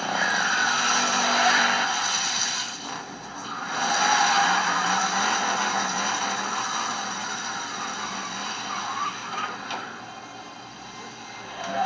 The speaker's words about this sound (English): Engine running and everything.